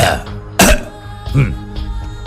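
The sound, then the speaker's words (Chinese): A man coughs once: a short, sharp burst that stands out among other low, throaty vocal noises. “高育良有大将风度，似乎没有想到这失利与责任，他咳嗽了一声”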